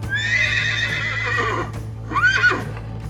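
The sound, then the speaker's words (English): A horse's neigh, voiced as a centaur rearing up and bellowing, gives two whinnies. A long, shrill, quavering call comes first, then a shorter high whinny follows after a brief pause, over a low steady hum. “Before an indignant Pholos could retort, a sound ripped through the air. It was one of the centaurs rearing up on his hind legs and bellowing freely.”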